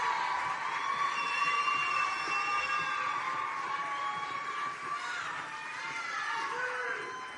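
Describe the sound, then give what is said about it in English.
A crowd cheering, whooping and shouting for contestants at a dance competition, a continuous, high-pitched roar of many voices that holds at a steady level throughout. “The next group of contestants, 21 through 30. Keep applauding. Keep it going. Keep it going.”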